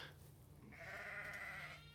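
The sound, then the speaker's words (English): A sheep on a sheep farm gives a single faint, drawn-out bleat of about a second, alone against a quiet background. “You can hear the sheep welcoming us now.”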